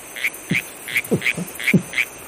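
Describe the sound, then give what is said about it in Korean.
A live green tree frog croaks repeatedly in a steady rhythm, with bright, chirping calls mixed with a few lower, throaty grunts. The calls come one after another with short gaps between them. “그 안주가 특별했다. 살아있는 청개구리였다.”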